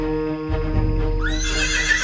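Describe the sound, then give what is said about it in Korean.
Horses neigh, part of a large wagon procession with many horses and people. A loud whinny rises and wavers in pitch over a steady low rumble of hooves and movement. “산 꼭대기에서 내려다봤더니 저 산 아래에 거대한 마차 행렬이 지나가고 있었습니다. 말과 사람도 아주 많았죠.”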